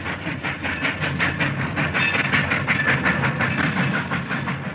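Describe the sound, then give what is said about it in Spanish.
A train passes by without stopping, giving a loud, steady rumble with a rapid, rhythmic clickety-clack of wheels running throughout. “El tren que pasó sin detenerse devuelve a Susi al presente, a la vacía plazoleta de Villa del Parque.”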